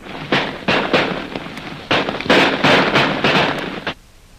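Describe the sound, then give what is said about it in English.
Guns fired rapidly over the heads of a Maharaja's approaching men: many sharp, loud cracks in quick, uneven succession, each with a short noisy tail, before the firing abruptly stops. “We'll fire over their heads. The Maharaja's ahead, Jim. Yeah, I can see him. We'll shoot several times as fast as we can, Lil.”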